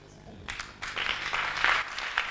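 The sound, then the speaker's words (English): A church audience clapping during a sermon, a loose patter of many hands that starts after half a second and grows fuller, with voices mixed in. “The givers are clapping.”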